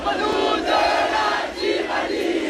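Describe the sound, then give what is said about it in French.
High school students in front of a blockaded lycée in Saint-Denis sing La Marseillaise as a crowd, a loud, continuous mass of voices that swells and dips slightly without pause. “Hier matin, par exemple, Bali Bagayoko, le maire de Saint-Denis, devant un lycée bloqué. L'insoumis fait même chanter la Marseillaise.”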